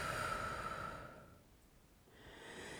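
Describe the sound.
Slow, soft breathing during a guided meditation: a long airy exhale fades almost to silence, then the next breath starts to rise, quiet and unhurried.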